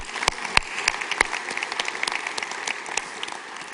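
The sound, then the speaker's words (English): Audience applause in a room, a dense, steady patter of many hands clapping at an even level. “For those of you who are in the room, would you please give a big hand to our television online audience?”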